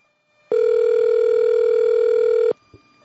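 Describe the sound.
A steady telephone tone sounds on the line while a caller phones a restaurant to order food: one unbroken mid-pitched beep held for about two seconds, then a faint click as it cuts off.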